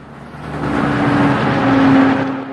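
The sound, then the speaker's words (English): A large blue and white coach pulls up at the petrol pumps of a motel forecourt, its engine giving a steady, low rumble with a humming tone that swells and stays loud throughout. “A large blue and white coach is pulling up at the petrol pumps in the motel forecourt outside the cafe.”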